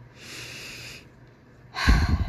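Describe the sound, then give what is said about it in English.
A deep breath drawn in slowly as a long, airy inhale, followed by a short pause and then a louder, rougher breathy release. “I want you to take a deep breath with me here.”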